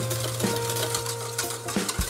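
A whisk taps against a bowl as eggs are beaten until frothy over a water bath for a dessert. A few soft, rhythmic clicks sound over a steady low hum.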